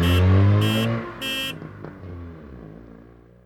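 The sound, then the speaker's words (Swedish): A car driving off to the garage for a tire change: a few short toot-like bursts at the start, then the engine noise steadily fades away. “Nu åker i alla fall jag upp till Santos och byter mina däck.”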